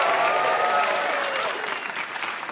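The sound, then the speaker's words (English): Hands clapping in response to a kids' song, a dense patter of many claps blending into steady applause, loud at first and easing slightly toward the end, with no clear speech over it. “If you're a kidney and you know it, clap your hands.”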